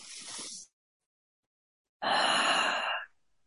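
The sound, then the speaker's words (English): A deep breath: a soft breath, a moment of silence, then a louder, fuller sighing breath lasting about a second, quiet and alone without any talk. “I would like you to just take a deep breath in and out.”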